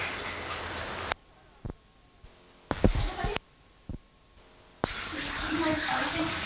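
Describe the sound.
Tap water running and splashing at a sink as a child washes hands with hand soap: two stretches of steady hissing flow, with a quieter gap between holding a few brief knocks and clunks.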